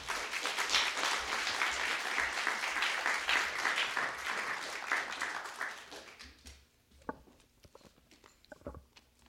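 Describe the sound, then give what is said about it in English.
Audience applause welcoming an author to speak at an evening event. The clapping is full and sustained for about six seconds, then thins out into a few scattered claps and light taps. “Please join me in a warm welcome to Amanda Foreman.”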